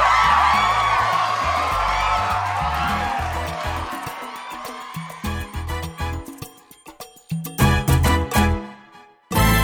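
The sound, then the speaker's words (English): An audience cheers and whoops for a live band in a loud, sustained roar of voices that thins midway into scattered shouts and bursts, then drops away at the very end. “Listen to that band! I'm so glad they're here once again! Give it up for them! Go!”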